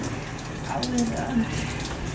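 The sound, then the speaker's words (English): Shower water runs in a steady, soft hiss of spray, constant and unbroken throughout. “So, I'm in the shower”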